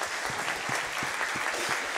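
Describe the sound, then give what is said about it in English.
An audience applauds at a morning gathering as someone is welcomed to stand up. Dense, steady clapping from many hands holds at an even level throughout. “Let's give it up for Tammy Shute today.”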